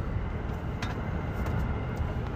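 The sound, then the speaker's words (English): Car driving on a California road on a morning commute, a steady low rumble of engine and road noise with a few faint ticks, and no one speaking. “It's about 8 o'clock in the morning on my way to work here. Just out in, you know, in California, just driving around.”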